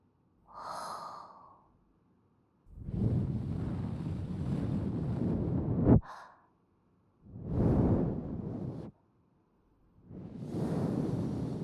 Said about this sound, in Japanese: 軽くお耳に息を吹きかけていきます。こうやって、